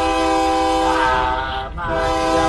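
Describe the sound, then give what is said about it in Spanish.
A train horn blares in a long, steady, loud chord over the low rumble of the train, dipping briefly near the end before the tone swells back. “Ya se te fue el tren, se va el tren.”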